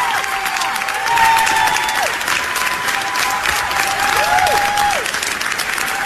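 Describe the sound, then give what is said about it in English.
Lawmakers in the New York State Senate give a standing ovation, with loud, sustained clapping and a few cheering voices throughout. “That's a standing ovation in the New York State Senate celebrating.”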